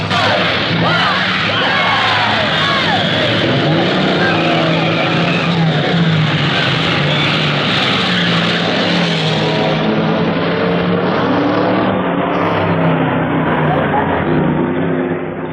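Race cars starting a 20-lap race on a track, their engines making a loud, continuous, revving roar that holds steady from start to finish.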